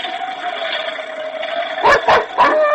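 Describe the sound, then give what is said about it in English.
A dog yipping and barking, three sharp, high-pitched bursts in quick succession near the end, loud, following a steady tonal background, with no talking. “Quiet, you fool dog. Shut up. He hears something.”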